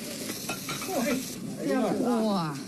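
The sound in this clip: Food sizzles and scrapes as it is stirred and fried in a big iron wok, a steady hiss under clanking. Voices talk over the cooking.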